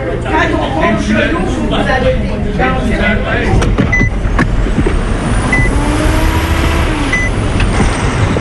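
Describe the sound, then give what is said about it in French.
Trucks rumble at a large highway truck stop, a steady, loud engine and road drone with a few short, high beeps like a reversing alarm. “À la sortie d'Edmundston, il y a un immense relais routier.”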